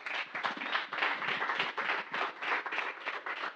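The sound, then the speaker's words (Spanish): Audience applause at the closing event of a community media workshop in a rural area: dense, continuous clapping from many hands, steady and fairly soft throughout, with no voices over it. “Muchas gracias. Un aplauso para ellos.”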